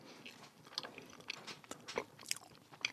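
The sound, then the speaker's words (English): Biting and chewing pastel-colored candy corn, blue and yellow pieces. A few faint, crisp crunches are spread across the moment with soft chewing between them, and no voices. “Let's try it together and see if it just tastes like a regular candy. I'm going to take a blue one candy corn and a yellow one.”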